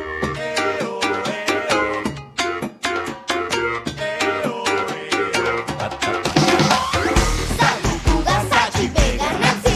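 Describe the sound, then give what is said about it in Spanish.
Theme music from a Disney children's series about diversity among kids, with bright plucked notes over a steady, bouncy percussive beat. The arrangement grows fuller and denser toward the end, with heavier bass and thicker layers, and no voices. “lo que estás escuchando es la cortina de Nivis, la serie de Disney”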